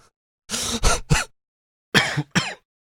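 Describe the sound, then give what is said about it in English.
Coughing that breaks out of a laugh: several short, harsh bursts in two quick groups, separated by a brief pause, with no talk around them. “that was a laugh turned into a cough”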